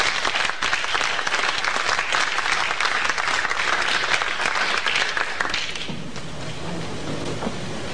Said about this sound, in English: Please give a warm welcome to Dr. Phyllis Mullenix.